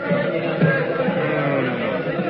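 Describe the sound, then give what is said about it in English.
Crowd of people gathered in the street below, heard as a steady murmur of indistinct voices at moderate volume, with no single voice standing out. “There is a crowd of people below in the street.”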